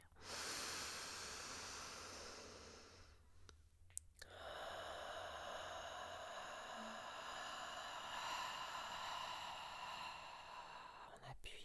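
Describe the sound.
Deep breathing during a breathing exercise: a long, faint, breathy hiss of drawn-in air that runs steadily, broken only briefly partway through.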